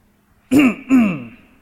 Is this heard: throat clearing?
yes